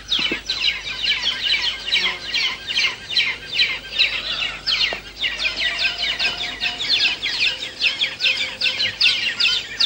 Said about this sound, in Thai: นกเงือกสีน้ำตาลจะผลัดกันเข้าป้อนทีละตัวด้วยการต่อคิวรอหน้ารังมีบางครั้งที่ตัวหนึ่งยังป้อนไม่เสร็จแต่มีตัวอื่นบินเข้ามาเตรียมจะป้อนต่อและส่งเสียงร้องเอะอะ